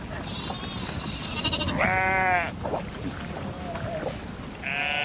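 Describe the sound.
A herd of sheep or goats bleating as the farm animals are let out near rising water: several loud, wavering bleats over a steady rushing background noise.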